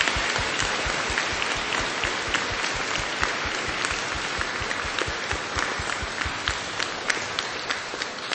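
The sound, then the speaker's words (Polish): Applause for a guest being welcomed in a church: dense, steady clapping from many hands carries through the whole stretch, with no voices on top. “Bardzo serdecznie też witamy panią Magdalenę brawami.”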